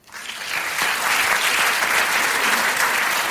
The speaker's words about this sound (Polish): Dobrze mówiłeś, że będzie dużo klasków dzisiaj.